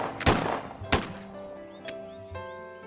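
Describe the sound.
Gunshots in a cartoon scene: two loud, sharp cracks close together, then a fainter third bang, with thin ringing tones trailing between them.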